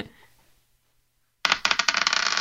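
Eight-sided dice rolled during a tabletop roleplaying game make a sudden burst of rapid hard clicking and rattling that follows a near-silent pause and continues busily to the end.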